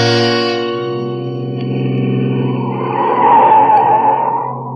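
A car speeding up a steep, tortuous mountain road with tires skidding: a loud, steady engine drone as a screeching skid swells toward the end and then fades.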